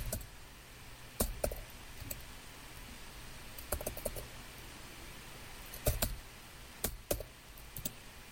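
Typing on a computer keyboard, sparse, faint key clicks in small clusters separated by pauses, with no talking.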